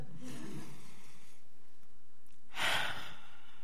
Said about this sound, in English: So let's take a breath.